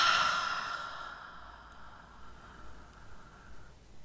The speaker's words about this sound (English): take that deep breath in. And keep going, filling up belly, lungs, chest, and exhale.